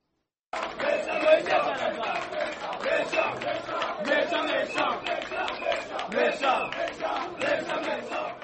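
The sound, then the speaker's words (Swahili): Crowd singing and ululating at the UDPS party headquarters in Kinshasa, with many voices chanting in rhythm and high trilling ululations rising above the sustained roar. “Hasira iligeuka kuwa nyimbo na vigelegele kwenye makao makuu ya UDPS baada ya Felix Tshisekedi kutangaza kwamba amejiondoa kwenye mkataba wa Geneva”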